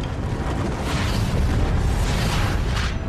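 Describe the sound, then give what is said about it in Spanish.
An explosion sound effect for a collapsing star's supernova: a loud, continuous, roaring rumble with heavy low-end weight that holds steady from start to finish. “La estrella se derrumba y explota.”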